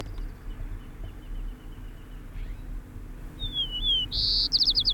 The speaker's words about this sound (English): White Crown Sparrow A.